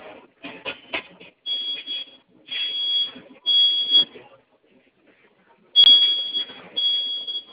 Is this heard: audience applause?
no